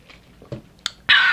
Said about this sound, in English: I'm currently drinking a coffee little ASMR moment. It's a Dunkin' and not a Starbucks.